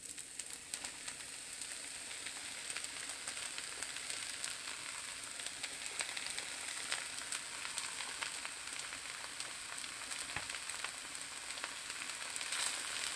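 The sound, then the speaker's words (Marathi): Spinach sizzling as it is sautéed in a pan, a soft, steady crackle and hiss of frying that runs evenly for about thirteen seconds with tiny sputters scattered through it and no talk. “Mix करू। आणि आता आपण पालक टाकू।”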